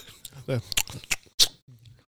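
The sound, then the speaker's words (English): Crunchy chewing of s'mores: a few sharp, bright bites and crunches between short stretches of voice, with people talking around the chewing. “Oh, these s'mores are delightful. A little ASMR for you. Yeah, I was going to say, I could hear that.”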